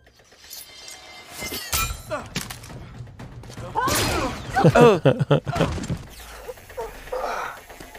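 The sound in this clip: Show sound effects from a fight scene where a blade is thrown at a man's hand: a run of heavy thuds, clangs and crashing impacts, loudest in a dense burst near the middle.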